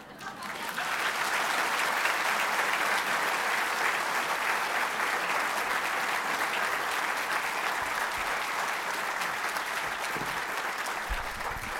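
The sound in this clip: Sustained audience applause welcoming an author to speak at a book event: dense, steady clapping that starts within the first second and holds at an even, loud level for about eleven seconds.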